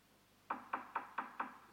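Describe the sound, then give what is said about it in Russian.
Knocking on a door: five sharp, evenly spaced raps in a quick steady rhythm, clear against a quiet background. “Кажется, стучат.”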